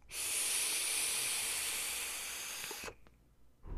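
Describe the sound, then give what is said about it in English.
Steady breathy hiss of someone inhaling from a non-nicotine vape, lasting nearly three seconds at an even level before cutting off to near silence. “Here, I'm going to take my non-nicotine vape here. I'm going to breathe it in.”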